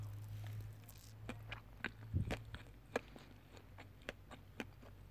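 Someone chews cupcakes with a full mouth, faint moist squishes and small clicks scattered irregularly over a low steady hum.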